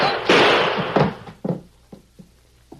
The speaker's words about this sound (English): I'm sorry. I hated to do it. But it was either me or him. You shot in self-defense, Sheriff.